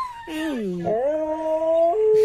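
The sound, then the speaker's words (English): Two dogs howl to each other over a video call, one high-pitched: long wavering harmonic howls overlap, the pitch dipping and then rising before holding steady. “it starts with the first dog, and then the other dog starts howling.”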